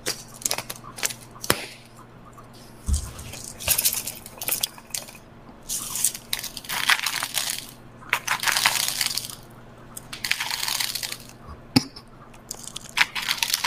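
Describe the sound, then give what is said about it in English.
Crunching of seasoned crackers being chewed: many crisp, crackly bursts in irregular clusters separated by quiet pauses, over a low steady hum. “It was seasoned crackers.”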